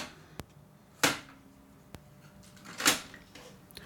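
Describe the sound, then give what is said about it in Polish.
Faint plastic clicks and clunks come from a cassette being put back into a Technics RS-T330R tape deck: two sharp ticks and two louder rattling clatters, spaced apart with no talk. “Z powrotem wkładam kasetę poprawnie.”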